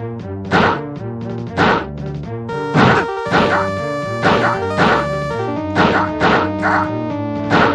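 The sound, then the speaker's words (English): Video game sound effects of enemy soldiers being shot and dying in a first-person shooter. Many sharp, harsh bursts repeat at fairly regular intervals over a steady, tonal musical background. “Okay, got the same sound effects as Wolfenstein 3D, man. Yeah, that was this is how Nazis sound when they die.”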